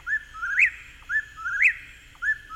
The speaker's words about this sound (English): We're going to play the one that we often confuse it with. So let's play the whippoorwill.